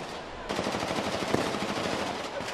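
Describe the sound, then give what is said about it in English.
Dense automatic gunfire, thousands of rounds shot into the air at a regime rally in Green Square in Tripoli, Libya, erupts abruptly after a brief low rumble and continues as a rapid, unbroken, loud crackling barrage. “Thousands of bullets get fired up into the air at the regime's regular protests against NATO in Green Square, the center of the capital.”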